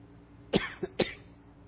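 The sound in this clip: Coughing from a cold: a short run of three hacking coughs, the middle one softer, sharp and dry against quiet background.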